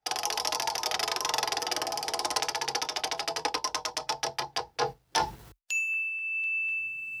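A prize wheel spins with its clicker ticking rapidly and evenly, then slowing into widely spaced clacks until it stops. A bright, sustained chime rings out at the end.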